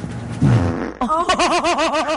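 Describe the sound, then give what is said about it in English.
A fart lets out a low, rumbling blast lasting under a second, followed right after by a voice with a wavering pitch. “I do need a fart. Hold on.”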